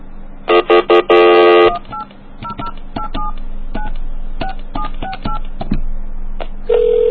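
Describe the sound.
Telephone keypad dialing: a quick run of short, bright touch-tone beeps and one longer held tone, then quieter scattered blips and a steady tone near the end.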